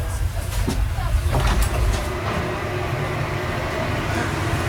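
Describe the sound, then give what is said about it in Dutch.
A long-distance train pulls into the station in Kiev, giving a steady low rumble with rattling and clanking throughout. “Nou, we rijden het station binnen van Kiev.”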